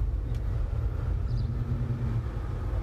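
Steady road and engine noise from a car being driven, a continuous dull low rumble with no distinct events and no voices.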